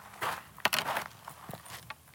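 Faint footsteps crunch along on an early autumn evening walk outdoors in hot desert weather. A few irregular steps sound over a low background hush.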